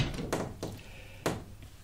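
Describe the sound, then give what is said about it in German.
A window is shut with three soft wooden knocks and thuds. The knocks are quiet and irregular, and the last one comes after a short pause. “Kann ich das Fenster zumachen? Ja, mach es ruhig zu.”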